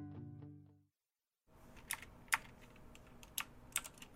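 Computer clicks during a telemedicine visit: after a short gap of silence following a brief tonal sound, a handful of sharp, separate clicks sound at an uneven pace.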